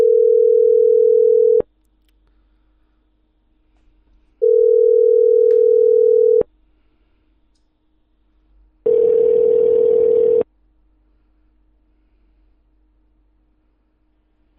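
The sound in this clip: Telephone tones while a call back is placed: three steady, loud, mid-pitched tones, each lasting one to two seconds, separated by gaps of silence. The last tone carries a rougher, noisier edge.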